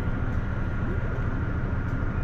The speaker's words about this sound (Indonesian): saya sedang berada di salah satu stasiun kereta yang cukup besar, terletak di tengah-tengah kota Bandung.